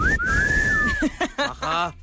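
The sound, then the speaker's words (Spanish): A person at a lively gathering whistles as names are called out. One loud whistle of about a second rises quickly, holds its pitch and dips at the end, and brief voices follow. “No, tienen que silbar.”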